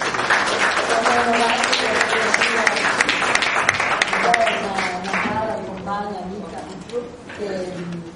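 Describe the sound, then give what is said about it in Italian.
Audience applause at a session of a literary or speaking event, a dense, steady wash of clapping that holds for several seconds before thinning slightly, with a voice speaking over it throughout. “Io vi faccio un bel applauso”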